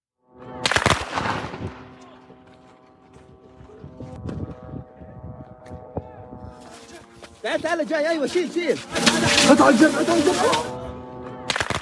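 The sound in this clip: Gunfire caught on a news cameraman's footage, sharp cracking shots in quick clusters, with people's voices heard in the later part.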